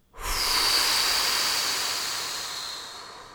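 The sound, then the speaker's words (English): A deep breath during a guided breathing exercise: one long, loud, airy rush of breath that swells quickly and then fades slowly over about three seconds, with no talking. “So take a nice, big, deep inhale through your nose. And blow.”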